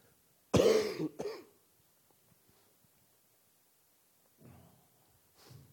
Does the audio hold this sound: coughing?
yes